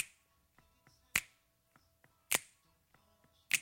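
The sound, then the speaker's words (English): Three evenly spaced, crisp finger snaps sit in a Motown song as it builds toward the chorus. Each is a sharp, bright crack standing out over faint, soft backing. “Now we're heading towards the chorus, and there's a couple of new elements added here. There are some finger snaps”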